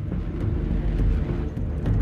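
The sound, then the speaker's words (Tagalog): A car speeds away, its engine a steady, loud low rumble with breathy wind-like noise running through the whole clip. “Sumakay ito at pinaharurot na ang sasakyan.”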